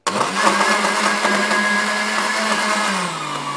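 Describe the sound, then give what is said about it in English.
A blender whirs as it mixes coffee with nutmeg and cinnamon, a loud, steady motor roar that holds for several seconds before its pitch sags slightly near the end. “You ready? Psycho blender, here we go.”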